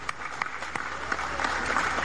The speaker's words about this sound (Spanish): ¡Un aplauso para la banca!